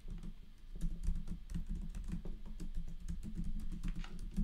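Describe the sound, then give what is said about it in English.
Fingers type on a computer keyboard in a fast, continuous patter of light key clicks, faint and steady, with no talking. “Hold on, let me type it in correctly.”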